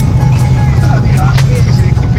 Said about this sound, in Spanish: todavía voy arriba del auto, no me he bajado, viajando como de costumbre